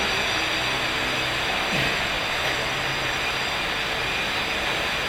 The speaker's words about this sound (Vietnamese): hôm nay chúng ta bị trở ngại nhiều quá, ồn ào do cái tiếng máy bay, rồi do trang âm nữa.